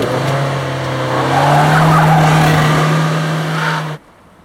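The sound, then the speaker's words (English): A car engine hums steadily as it drives past changing traffic lights. The tone holds level, lifts slightly partway through, then cuts off abruptly near the end. “A set of traffic lights change, and Marion drives past them.”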